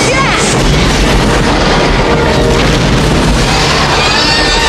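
A volcanic eruption blasts out explosions as fire bursts across a city. A loud, dense roar is punctuated by deep booms and crackling pops throughout.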